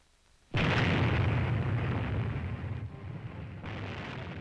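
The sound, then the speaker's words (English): An above-ground nuclear bomb test explosion: a sudden loud blast that swells into a sustained, deep roaring rumble and holds steady for several seconds. “We humans were detonating nuclear weapons above ground in these nuclear bomb tests.”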